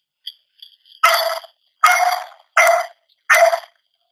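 Dogs barking: four loud, evenly spaced barks, each a short harsh burst, preceded by a few faint, brief yips.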